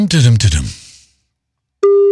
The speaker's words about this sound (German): Aha, ein Freizeichen. Das ist schon mal gut.